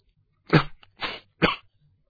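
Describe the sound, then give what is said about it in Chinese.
A person coughs three times, short and fairly loud, with brief silences between the coughs and no other sound. “于是一只手抚着心，连续咳了几声嗽。”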